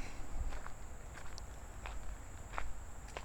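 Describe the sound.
Footsteps of someone walking around fast, a quick run of light, irregular steps over a faint, steady high whine, with no talk.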